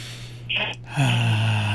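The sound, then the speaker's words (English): A deep breath drawn in through the nose during a guided breathing exercise: a short airy sniff, then a longer, steady, fairly loud breathy rush that carries on to the end, with a low steady hum underneath. “Let's breathe in that air one more time.”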